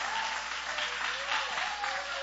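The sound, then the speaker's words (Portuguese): Applause from a church service audience, a dense and steady wash of clapping that holds at an even level for the whole stretch without pause. “Recebamos com mais palmas que louve ao Rei.”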